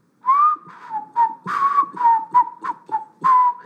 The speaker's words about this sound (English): was walking along whistling